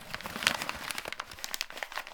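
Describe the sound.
A paper sheet, just taken from a small metal box, is unfolded and handled with faint, dry crinkling and many small irregular crackles and rustles, with no voices.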